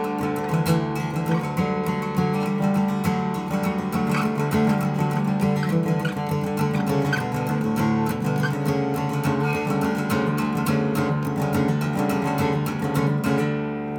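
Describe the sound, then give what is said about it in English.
A guitar in drop D tuning is strummed on only its low three strings, producing a full, deep, ringing chord. The strumming is steady and continuous, with many quick strokes at an even volume and no talking. “And that's just me strumming those low three strings.”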